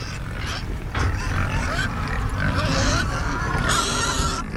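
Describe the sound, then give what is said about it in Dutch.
Pigs grunting in a field where seven pigs share one hectare and lie sunbathing; low, rough grunts come continuously over a noisy outdoor background. “Dit is wel mooi in de varkens, hè? Ze hoeven niks te doen, lekker liggen en een beetje zonnebaden.”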